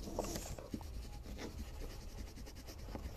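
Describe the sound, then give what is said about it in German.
Handwriting a note on paper: faint scratching of a pen in quick, short, uneven strokes that run throughout, with no talking. “Warte, ich schreibe mir kurz was zurück.”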